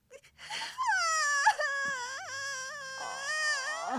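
A girl crying in a Spanish-dubbed film, with sustained, high, wavering wails broken by short catches of breath, loud and clear with little else around it.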